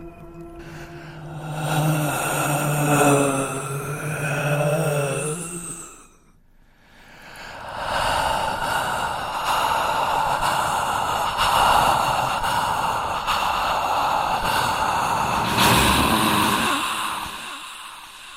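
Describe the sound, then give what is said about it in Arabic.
Heavy breathing as a horror sound effect, close to the ear: breathy, voiced exhalations with a moaning tone, a brief near-silent pause, then a long, continuous breathy rush that swells near the end. “مش سمع أي حاجة غير صوت أنفاس جنب ودني”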